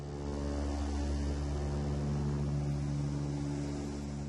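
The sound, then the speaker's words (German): An aircraft flies at high altitude over Iraq's Anbar province, producing a steady, low, droning hum with constant tonal engine notes that stay unchanged throughout. “Die Piloten fliegen die Maschine in großer Höhe, denn jenseits des Euphrat beginnt die Todeszone der Islamisten.”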